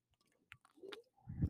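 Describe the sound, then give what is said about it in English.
Someone drinks water right up against the microphone: faint, close mouth sounds with a small wet click, a soft slurping sip and a low gulping swallow, amid near silence. “I need a little suckle of water really quick. Hold on. You guys might hear my ASMR because I got this mic and it picks up everything. I just like want to whisper, but I can't. Here we go. ASMR of me drinking water.”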